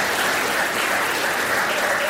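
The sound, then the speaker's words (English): Audience applause, a steady, dense wash of clapping that holds at an even level for its whole length with no voices over it. “Round of applause.”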